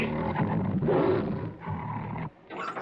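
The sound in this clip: Tigers crowding at the bars of a cage give deep, rumbling roars that run almost continuously, breaking off briefly near the end before a rougher growl resumes.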